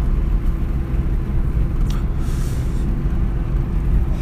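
A car being driven on the road gives a continuous low rumble that stays steady and fairly loud throughout.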